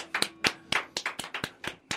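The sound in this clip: Hand clapping from a single person in a studio: a steady, crisp run of about ten sharp claps at an even, brisk rhythm, heard alone.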